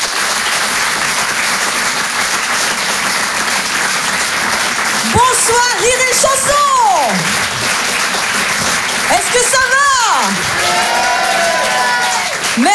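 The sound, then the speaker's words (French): Dense, steady applause from a comedy club audience welcoming a comedian on stage fills the whole stretch, with loud voices calling out above the clapping twice. “Je vous demande d'encourager, s'il vous plaît, Johanna Salesi.”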